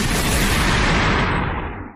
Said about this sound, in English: I'll take you out with a shotgun blast here for you.